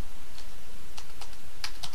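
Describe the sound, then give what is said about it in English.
Typing on a computer keyboard: a few soft, crisp key clicks at uneven intervals over a steady background hiss. “And I'm going to type in Chiefs.”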